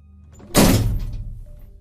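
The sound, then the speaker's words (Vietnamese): A head banging against a door frame gives a single heavy, dull thud that rings out briefly and fades over about a second. “Đây chính là do Trúc dùng đầu của mình mà đập vào thành cửa.”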